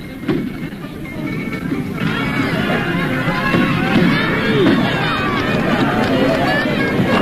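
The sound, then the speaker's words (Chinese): A crowd gathered at a horse racecourse cheers and laughs, a lively babble of many voices that swells after the first couple of seconds and stays loud to the end. “赛马场上聚集了很多人，大家欢呼着笑着”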